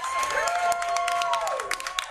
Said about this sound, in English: put your hands together for Erik, Tait!